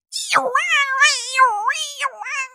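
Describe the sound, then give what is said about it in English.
A voice imitates a dial-up modem connecting over a phone line. It makes warbling, sliding, screechy tones with a strongly shifting pitch, heard alone for about two and a half seconds. “you remember you had to plug in your fucking computer into the phone line and it's like, and it sounds like a cat in a dryer.”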